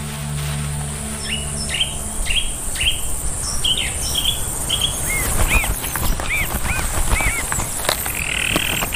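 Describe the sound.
Shrike parents feed their nestlings, tearing food into small pieces, amid many short, high-pitched chirps repeated in quick bursts over a steady background hiss.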